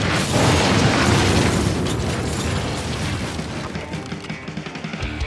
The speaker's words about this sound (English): The side of the fucking chapel exploded, and that beast stepped in bold as shit.